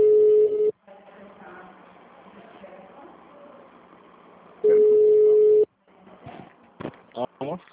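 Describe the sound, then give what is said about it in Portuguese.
Telephone tone on a city hall phone line: a short steady beep at one mid pitch, then a voice speaking, then a longer tone at the same pitch, followed by a few short bursts of sound. “Após o sinal, digite o ramal desejado ou aguarde para falar com a telefonista.”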